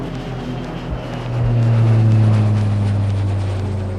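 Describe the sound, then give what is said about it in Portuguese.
A small jet plane taking off, its low droning engine roar swelling louder partway through and then holding steady and strong. “Então aperte os cintos, deixe seu assento na posição vertical, verifique se a mesinha está devidamente presa que esse jatinho vai decolar!”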